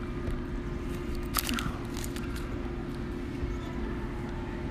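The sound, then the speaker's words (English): Biting and chewing on chewy granola bars: soft, uneven crunches and a few sharper bites over a steady low hum, with no clear rhythm. “Okay, so I've given them their granola bars. So you guys can eat them.”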